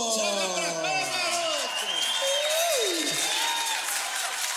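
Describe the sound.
A crowd applauds and cheers as a guest is welcomed at a show, with rising and falling whoops and shouts over continuous clapping that holds a steady level throughout.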